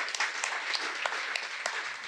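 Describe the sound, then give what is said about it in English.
Audience applause: dense, continuous clapping from a crowd, steady and fairly loud from start to finish, with no talking over it. “Give them a big round of applause, ladies and gentlemen.”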